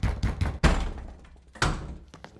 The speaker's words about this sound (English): Now let's knock on this door with the vigor of Luther nailing his thesis.